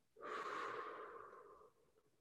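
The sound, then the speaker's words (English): A single slow, deep breath taken in through the nose and let out through the mouth, heard as one soft, airy rush on its own, faint and unhurried. “So let's take a deep inhale through our nose. And then exhale through our mouth.”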